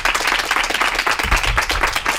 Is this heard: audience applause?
yes